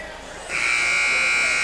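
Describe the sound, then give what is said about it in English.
A basketball game buzzer at a girls' tournament cuts in after half a second of low background noise, a loud, steady, high-pitched electronic drone that holds unbroken to the end. “And hear the buzzer.”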